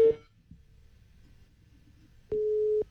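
A telephone busy tone marks a rejected call: a brief tone at the start, then a faint hiss on the line, then one longer, steady, mid-pitched beep lasting about half a second.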